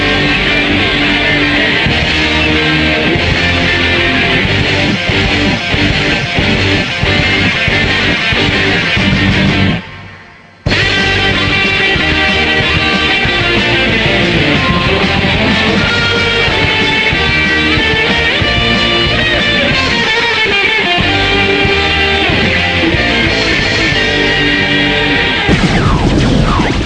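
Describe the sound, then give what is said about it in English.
Main theme music of the Dark Brotherhood from a video game: dense, sustained, layered music that plays loud and continuous, drops briefly to near silence partway through, then resumes and carries on to the end. “What you just heard was the main theme for Dark Brotherhood. This is my favorite song in the entire game.”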